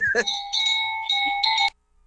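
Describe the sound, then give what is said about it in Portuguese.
A bell rings loudly and on its own in a steady, sustained tone for about a second and a half. The ringing breaks off briefly a few times, then cuts off abruptly into silence. “Para com esse sino chato que tá me irritando.”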